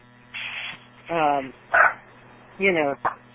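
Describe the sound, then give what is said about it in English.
A dog barks at another dog: a few short, tonal barks and yips in quick, uneven succession, each with a slight downward pitch slide, moderately loud. “my dog sees another dog, and he's barking”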